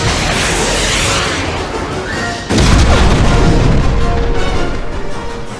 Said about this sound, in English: Move it with those rockets. Fire!